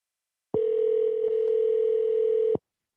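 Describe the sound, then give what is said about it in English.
A telephone line tone sounds as a call is placed to a caller: one steady, mid-pitched electronic tone that holds unchanged for about two seconds, loud and alone, with no voices. “Let's give him a call.”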